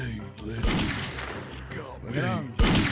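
Gunshots ring out during a video game ambush: several sharp, loud cracks burst through a busy bed of other game sound, with the strongest hits near the start and at the very end.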